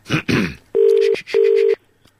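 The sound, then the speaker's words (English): Ringing tone of an outgoing telephone call: two steady, buzzy tone bursts of equal length separated by a short gap, loud and alone, following a couple of brief noisy bursts at the start. “We're phoning her now.”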